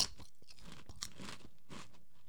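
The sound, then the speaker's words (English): Faint crunching as someone chews a crunchy snack with their nose plugged, with many short, brittle crunch bursts in an irregular rhythm and no talk. “Wow, it's hard to eat when you plug your nose.”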